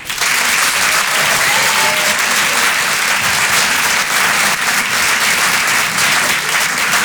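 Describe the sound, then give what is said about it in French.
Applause from a comedy club audience greeting a comedian as he takes the stage: loud, dense, steady clapping that continues at full strength from start to end. “Je vous demande de l'encourager, de faire un maximum de bruit, s'il vous plaît, pour Paco.”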